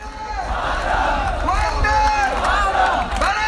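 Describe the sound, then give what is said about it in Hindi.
Student protesters at a demonstration over exams chant slogans together in loud, rhythmic group calls that rise and fall in waves. “तुकबंदियों और कविताओं से रोष प्रकट कर रहे थे। बीच बीच में नारे भी लगाए जा रहे थे।”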